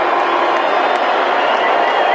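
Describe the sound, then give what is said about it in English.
Audience booing as Elon Musk stands on stage at a Dave Chappelle comedy show: a loud, dense, unbroken roar of crowd voices with scattered shouts throughout. “it's a remarkable video of Elon getting up on stage, getting booed, not knowing at all how to handle it, kind of like pleading with Chappelle to do something.”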